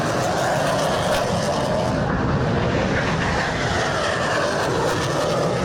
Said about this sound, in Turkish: Gökyüzü önce Gökbey'in pervane sesleriyle yankılandı